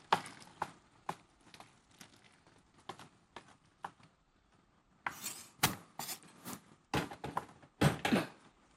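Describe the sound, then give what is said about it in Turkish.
A knife chops a tomato into small pieces for a Turkish shepherd's salad, making many sharp knocks. They start at a steady rhythm, then come as louder, denser bursts of cutting. “Doğrayacağız, tamam mı? Hemen açtım.”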